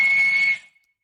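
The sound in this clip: A walrus whistling on land in Svalbard gives a single loud, sustained high-pitched whistle lasting about half a second, then cuts off abruptly, heard alone.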